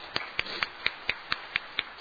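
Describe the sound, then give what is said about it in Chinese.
Applause at a church service welcoming first-time visitors: nine sharp, evenly spaced claps in a brisk, steady rhythm, bright and clicky, with no voices. “好，我们一同鼓掌来欢迎这几位，”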